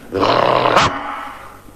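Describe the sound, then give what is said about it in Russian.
A bulldog on guard duty, jolted awake, lets out a loud, gruff growling roar that builds quickly and ends in one harsh bark-like snap, then fades out. “С просонок дежурный бульдог рявкнул так, что под лисой со страха оказалась лужа.”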